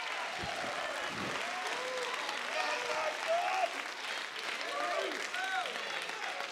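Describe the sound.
A church audience applauds and cheers during a service, including a group of boys from Project Hope at the back. Steady clapping runs under scattered whoops and shouts throughout.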